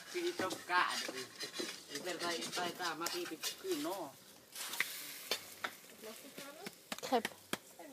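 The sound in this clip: A crepe of just flour and water, with no egg, fries in a pan with a soft sizzle and scraping stirs, mostly under people talking.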